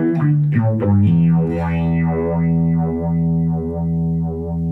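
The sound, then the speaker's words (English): An overdriven electric guitar sustains a loud, continuous note that blooms into resonant harmonic feedback, its upper overtones swelling and sweeping up and down in slow, repeating waves over a steady low drone. “He's getting it. It's feedbacking a little bit, so it's kind of it's he's getting a resonant feedback, which is kind of cool. It almost sounds like a harmonic feedback.”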